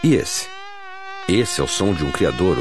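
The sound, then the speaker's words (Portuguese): Buzzing of dengue mosquitoes: a steady, high, whining drone that holds an even pitch for under a second, set between stretches of talk. “Está ouvindo esse som? Esse é o som de um criador do mosquito da dengue.”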